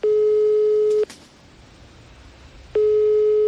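A telephone ringback tone sounds while a call is placed: two steady, buzzy tone bursts, each about a second long, separated by a quiet gap of line hiss.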